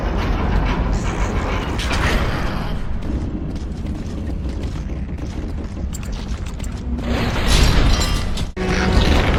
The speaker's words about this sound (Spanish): Así es como lo hacen. Es una línea de montaje de Ticker.